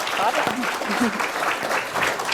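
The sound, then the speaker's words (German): An audience applauds at a youth hackathon event with steady, even clapping. A voice talks over it the whole time. “Applaus bitte.”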